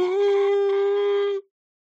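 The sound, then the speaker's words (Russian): A woman howls like a wolf with her face raised to the sky: one loud, sustained wail held at a steady pitch for about a second and a half, then cut off, with nothing else around it. “Она по-волчьи завыла, задрав лицо к небу.”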